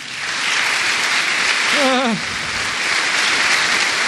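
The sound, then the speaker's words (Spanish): A church audience applauds in steady, dense clapping that holds an even level throughout, while a single voice briefly calls out in the middle. “Un aplauso al Señor,”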